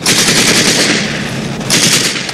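Gunfire aimed at soldiers crossing a ford, a loud dense rattle of rapid automatic shots with a harsh, bright crackle, continuous with a brief dip before resuming, no talk.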